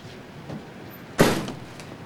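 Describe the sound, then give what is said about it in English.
A clothes dryer door is pushed shut with a single short thump, fairly faint, over a low, quiet background hiss. “He turns his back on her and opens a dryer. Some clothes fall out. He pushes them back in and shuts the door.”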